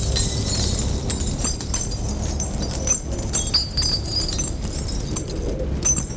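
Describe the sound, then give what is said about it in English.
Glass barrier shattering as bodies crash through it into a lobby below, then broken glass raining down: a dense, loud, sustained wash of crashing and tinkling shards with no pause. “Neil dives on him, and they crash through a glass barrier to the lobby below. Stunned, both men lie immobile as the gun slides across the floor and shattered glass rains down on them.”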